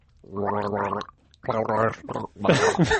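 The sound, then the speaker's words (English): A person gargles on request in three bubbly, voiced bursts separated by short pauses, with the last burst rougher and noisier. “And the sound it makes is a gargle.”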